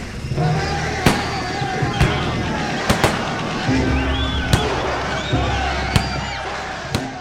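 A gunfire volley as soldiers open fire on a crowd in a square, several sharp, sudden bangs cracking out at irregular intervals over a continuous rumble of crowd noise.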